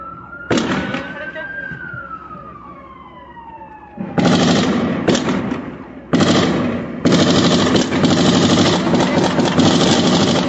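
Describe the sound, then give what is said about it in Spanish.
Bursts of gunfire from the south: a short opening crack, then dense, rapid crackling volleys that turn into a near-continuous loud rattle, with a falling siren-like tone heard before the heavy firing starts. “Al tiro, al tiro, están tirando del sur.”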